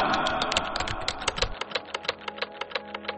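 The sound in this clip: Typing on a computer keyboard, a steady, rapid run of many crisp key clicks at moderate loudness, with no other sound around them.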